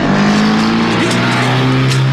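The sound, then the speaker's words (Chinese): A car's engine roars loudly as it speeds away in an escape from pursuers. It holds a steady, continuous drone throughout, with a strong low engine tone. “金福他们急忙开车逃走，李都督的手下就在后面紧追不舍。”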